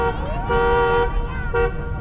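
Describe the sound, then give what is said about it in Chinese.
A jeep's horn sounds as it drives along a street: a long, steady blast followed by a shorter toot, both loud over a low rumble. “吉普车正行驶在街上”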